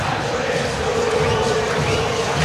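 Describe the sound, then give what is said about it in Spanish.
Crowd chanting fills La Bombonera at a Boca Juniors match against River Plate. It is a dense, steady roar of many voices that stays loud throughout with no break. “Se levanta el cántico. Con la dedicatoria para todos los clubes denominados grandes del fútbol argentino.”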